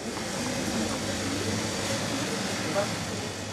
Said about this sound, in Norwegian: Kjøledisken går for fullt på El Refugio.